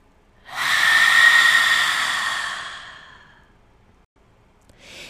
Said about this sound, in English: Take a deep inhalation. Exhale and let it go.